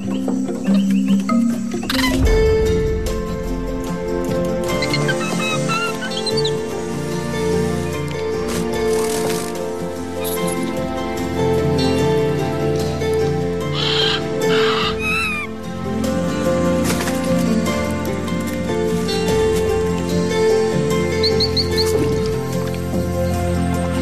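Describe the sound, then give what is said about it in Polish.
The soundtrack of an Amazon jungle adventure film about a young monkey plays steadily. Sustained tonal music is layered with a few brighter accents. “A ścieżka dźwiękowa z tego filmu, którą słyszymy, z filmu Amazonia, przygody małpki Sai, właśnie w tej chwili rozlega się w tle.”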